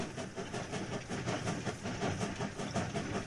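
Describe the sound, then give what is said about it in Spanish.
A train running on rails during a trip to Valencia: a steady, dense rumble with a faint, regular clatter of wheels running through it, sustained at an even level with no voices. “Estoy ahí en el tren escuchando otra vez”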